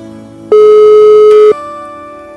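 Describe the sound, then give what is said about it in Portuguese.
A telephone busy signal during an unanswered call: one loud, steady, mid-pitched tone lasting about a second, sounding over a faint background of sustained tones. “A Lúcia Costa, a ganhadora dos presentes de hoje, não tá me atendendo, ó.”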